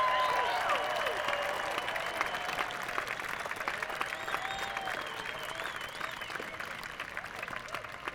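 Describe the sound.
Festival crowd at Merlefest in Wilkesboro, North Carolina, applauding and cheering to welcome a band onstage: dense, continuous clapping with scattered whoops and whistles, staying full and steady before easing slightly toward the end.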